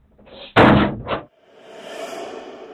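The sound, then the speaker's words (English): A police paddy wagon's van door slams shut behind a suspect: one heavy, loud slam followed by a shorter second knock, then a steady low rumble and hiss. “Mind your hands, darling, I'm going to close the door”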